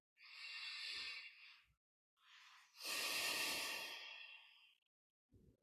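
Slow, deep human breathing in the quiet: two long, airy breaths, the second fuller and more drawn out, with a third just beginning at the end.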